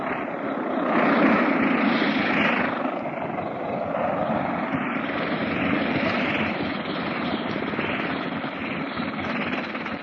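An airplane taxis with a steady, droning engine hum that swells and eases gently, moderately loud and heard alone throughout.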